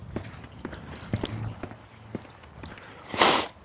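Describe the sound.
Footsteps of someone out on a walk, a loose series of soft, uneven steps, ending with a brief, louder noisy rush.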